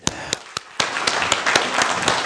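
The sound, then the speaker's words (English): Church audience applauding to praise God during a service. A few separate claps open, then they swell into steady, dense applause that continues to the end. “I wanted to praise God by applauding. Would anybody join me in doing that?”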